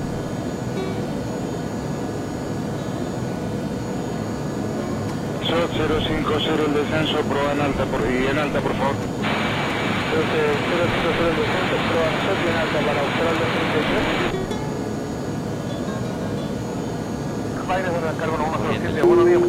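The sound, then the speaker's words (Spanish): Aircraft engine noise in flight under autopilot as the plane nears Corrientes, a constant broad roar with a voice speaking over it for much of the time. “Y cuando dijo Corrientes, va desacelerando la velocidad del motor. Todo producto del piloto automático.”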